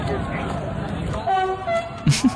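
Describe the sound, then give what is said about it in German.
Train horn sounding as a train passes a festival site: a brief sustained toot of layered tones partway through, with talk around it and a couple of short bursts near the end. “Und dann fährt dort ein Zug vorbei. Ja. Und macht einfach nichts, außer zu hupen.”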